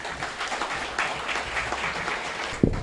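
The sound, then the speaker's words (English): Audience applause for two scholars at an evening event in Kolkata: steady, dense clapping at an even level, with a single louder thump near the end. “Let us all unite in our humble ovation to the two scholars of the evening.”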